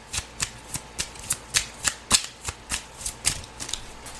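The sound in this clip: Playing cards being dealt one at a time: a rapid, evenly spaced series of many crisp paper snaps and flicks at a steady rhythm, with no talking.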